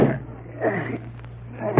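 A door being forced open with a shoulder: a few dull, heavy thuds and rattles of the door against its frame, separated by brief pauses.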